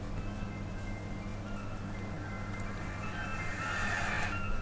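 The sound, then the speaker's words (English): An ice cream truck jingle, a faint tinny melody barely rising above constant rumbling, hissing noise that swells slightly toward the end. “Are you dancing to the ice cream truck song?”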